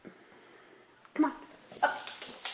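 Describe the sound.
A dog whimpering close to the microphone while tied down, giving a few short, high, whiny yelps and snuffling bursts that grow louder toward the end.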